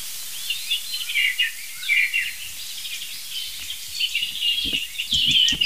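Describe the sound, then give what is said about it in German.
European robin singing: thin, high-pitched warbling phrases come in short bursts with small pauses between them. The song is faint and stays alone, with a few soft low thuds near the end. “Ich denke, das ist ein Rotkehlchen aus der Wand. Ja, ziemlich sicher.”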